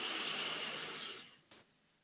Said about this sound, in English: Another deep breath in.